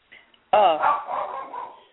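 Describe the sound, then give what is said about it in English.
A pet dog vocalizes at home in a loud, drawn-out, wavering bark-howl that lasts well over a second, preceded by a few faint, brief yips. “It's just my dog talking.”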